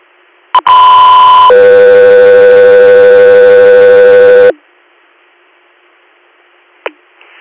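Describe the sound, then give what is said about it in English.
Two-tone radio dispatch alert paging an air medical helicopter crew: a brief blip, then a steady higher tone lasting nearly a second, followed by a longer, lower steady tone of about three seconds, loud and electronic, ending with a faint click. “Hotel 3 Air, stand by for tones.”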